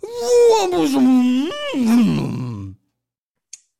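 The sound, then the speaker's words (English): A voice imitates a character combusting into flames and being destroyed, a long wavering groan that slides downward in pitch, briefly rises, then sinks again before cutting off, followed by a faint click. “This guy's being turned into flames, getting destroyed, and it sounds like this.”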